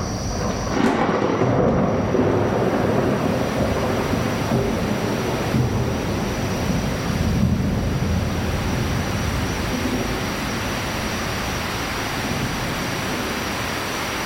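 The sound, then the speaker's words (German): A tropical downpour drums on a houseboat in the Amazon rainforest, a loud, steady roaring hiss of heavy rain that holds unbroken throughout, with no voices. “Da fängt es an, wie aus Eimern zu schütten.”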